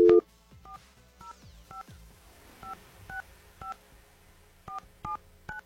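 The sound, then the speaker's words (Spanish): Touch-tone telephone keys being dialed: nine short, crisp beeps of differing pitch, spaced in three quick groups of three with brief pauses between the groups. “si no hablo es que estoy bien concentrada, marcando aquí el número telefónico correctamente”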